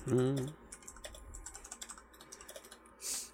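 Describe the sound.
Typing on a computer keyboard while writing notes: many quick, light key taps in an uneven run. A brief voice comes just before the typing, and a soft rustle follows at the end.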